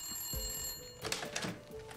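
A telephone rings faintly in a few short, bright bursts over a steady, low tonal hum, with no voices.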